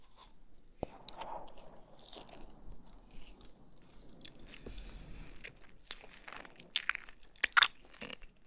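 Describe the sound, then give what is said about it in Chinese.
Crunchy biting and chewing of food, with a few sharper bites breaking through a soft, steady mashing. Faint and close, with no talking. “慢慢的吃，细嚼慢咽”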